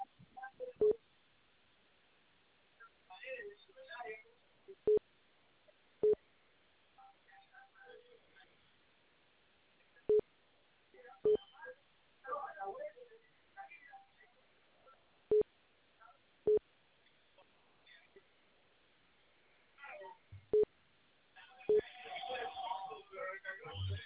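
Telephone keypad tones from someone dialing to reach a district office: short sharp beeps, mostly in spaced pairs across a long stretch, heard through a thin phone-line sound with faint murmuring between them.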